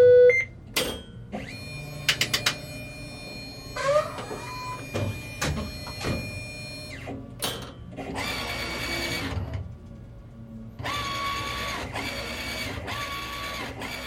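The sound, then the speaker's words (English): A direct-to-garment printing machine runs with mechanical whirring, sharp clicks and clunks, and sustained motorized whines that start and stop in bursts, the print head carriage moving back and forth. “What is happening when we hear this sound? This is a machine that does direct-to-garment printing. It's a lot less messy and labor-intensive than silkscreen printing.”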